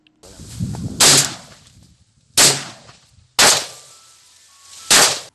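Four loud gunshots ring out, fired by a farmer to drive locusts from his crops. Each sharp crack has a short, fading tail, spaced unevenly over low background noise.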